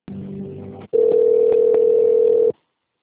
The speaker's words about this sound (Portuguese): Por favor, aguarde que sua ligação será transferida.